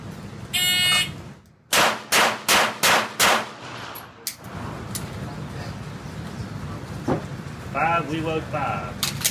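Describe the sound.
Five pistol shots are fired one-handed with the strong hand after a draw in a shooting skill test. The loud, sharp cracks come in a quick, even string, with a high electronic beep before them.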